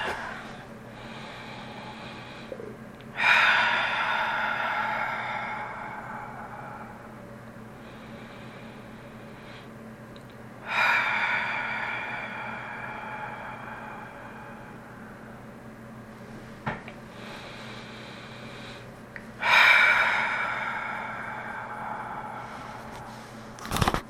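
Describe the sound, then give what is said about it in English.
Long, slow, deep breaths during a seated guided relaxation with eyes closed: three drawn-out, airy whooshes spaced several seconds apart, each swelling then fading over a faint, low, steady hum. “We're going to begin by taking some long, slow, deep breaths.”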